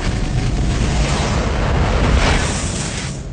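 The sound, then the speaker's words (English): A film sound effect of a crackling ball of fire hurtling towards Earth: a loud, dense roaring rush with rough crackle that holds steady for about three seconds, then thins out at the end. “The Fifth Element has tons of great sound design, from the whoosh of Bruce Willis's taxi to the crackling ball of fire hurtling towards Earth.”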